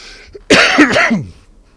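A single forceful, harsh cough bursts out loudly with a rough, voiced tail, then quickly fades into near silence.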